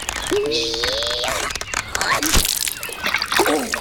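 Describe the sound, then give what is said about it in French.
Something falls back into water with a single sharp splash midway, surrounded by sloshing water and voices speaking over it. “Incroyable! Il a réussi à s'échapper. Il est retombé dans l'eau.”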